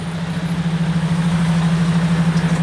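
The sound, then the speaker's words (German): A large truck with a Bosnian flag on its roof and flower decorations along its cargo bed drives into the courtyard of a former UN base. Its engine makes a low, steady drone with a fast rhythmic throb and no talk. “Ein großer LKW mit Bosnienfahne auf dem Dach und Blumendekoration seitlich an der Ladefläche fährt auf den Innenhof der ehemaligen UN-Basis.”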